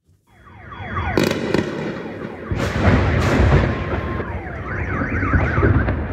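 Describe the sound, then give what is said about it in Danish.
Explosions from a night-time missile attack on a city ring out as several sharp, loud blasts. Wailing car alarms rise and fall continuously around them. “det vi hører her, det er lyd fra et omfattende missilangreb, som ramte i Kiev i nat”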